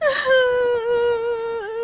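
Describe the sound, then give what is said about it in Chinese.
Someone cries in one sustained, quavering wail that starts high and slowly falls in pitch, then wavers near the end. The sob is loud and heard alone, with no words. “哭什么呀？你别哭了”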